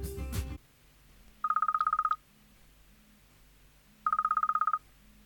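A telephone rings twice. Each ring is a short burst of rapid, pulsing electronic trills at a steady high pitch, with a couple of seconds of low hum between them. A brief loud sound comes before the first ring.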